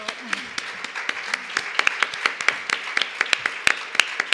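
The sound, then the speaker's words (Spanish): Scattered clapping comes from a small audience at a feminist economics panel assembly. The hand claps are sparse, sharp and uneven, ringing out over a low murmur rather than forming a dense wall of applause. “Un aplauso.”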